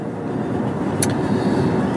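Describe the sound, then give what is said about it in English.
A car drives through the hills of Beverly Glen, a neighborhood area. Its engine and road noise make a steady, low rumble throughout, with one brief, sharp click in the middle. “So, yeah, that's pretty much what's going on. Just driving through the hills here.”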